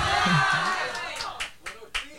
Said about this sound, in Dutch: Applaus.